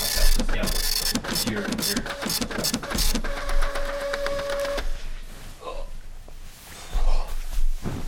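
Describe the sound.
A computer printer prints a document with rapid mechanical clacking and ratcheting. A steady whirring hum comes in the middle, followed by looser rattles and paper-feed shuffling.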